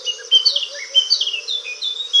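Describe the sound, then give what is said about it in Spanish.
Songbirds chatter in April, among them blackcaps and orphean and garden warblers. Many high, quick chirps and scratchy twittering phrases overlap in a continuous, busy stream. “envuelto entre los parloteos de las currucas, capirotadas,”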